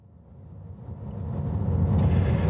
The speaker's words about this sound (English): I'm driving up to Stonehenge now.